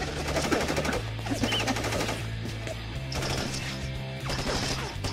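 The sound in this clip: Rapid gunfire as people shoot, a dense, continuous rattle of many quick shots over a low steady drone, with no voices.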